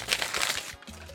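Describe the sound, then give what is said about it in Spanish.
Paper notes being torn up and crumpled: a loud, continuous crinkling and ripping rustle that runs the whole moment and eases slightly toward the end. “Voy a romper estas malditas notas.”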